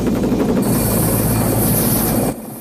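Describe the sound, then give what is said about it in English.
Whirring roar of a helicopter gunship's turning rotors as it hovers low over a river, a loud, steady, unbroken drone that drops slightly in level just before the end. “The rotors are still going.”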